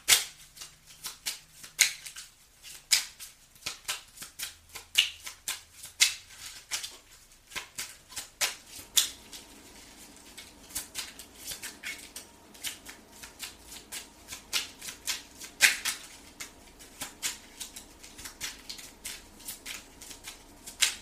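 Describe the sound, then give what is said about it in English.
Tarot cards are shuffled for a reading in many quick, crisp riffles and slaps, irregular in rhythm and varying in loudness, with brief pauses between bursts. “May I have two more cards, please? Two more cards for the year of 2022 for the sign of Aquarius.”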